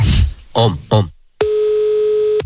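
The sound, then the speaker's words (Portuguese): A steady telephone dial tone sounds while a call is being placed, a continuous mid-pitched hum with harmonics lasting about a second, following a few brief spoken syllables. “Vou ligar agora pra Janaíra.”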